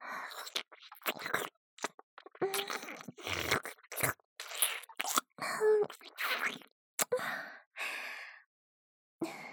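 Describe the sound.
ASMR mouth sounds of nibbling on an ear: many soft wet clicks, smacks and crunchy bites broken by breathy sighs and pauses, quiet and intimate throughout.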